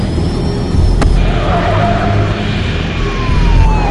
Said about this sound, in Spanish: Los coches entran en la pista de aterrizaje. El avión entra en un hangar. Los coches le siguen a distancia.